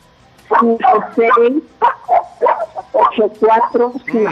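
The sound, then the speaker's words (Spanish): Small dog barking on the caller's end of a phone call, many loud, rapid yaps in quick succession, one after another with short gaps. “Dile que se calle un ratito el perrito, por favor.”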